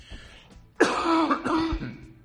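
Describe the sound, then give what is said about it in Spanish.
Harsh throat clearing and coughing from smoke inhaled in a burned forest after a wildfire, a rough, raspy burst that trails into strained, hoarse vocal sounds. “Mira, esta tos que tengo y esta voz, palabra, es que tengo el humo dentro.”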